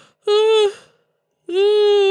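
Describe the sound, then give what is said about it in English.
A person gives a vocal yawn as two drawn-out voiced tones separated by a pause of about a second. Both tones hold a steady, fairly high pitch, are loud and full, and end in a breathy fade. “sorry, I had to yawn.”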